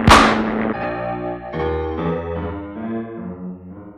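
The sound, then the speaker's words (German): A single sharp gunshot is fired aboard an aircraft, a loud bang that decays quickly and gives way to sustained, swelling musical tones. “Bei drei schieße ich.”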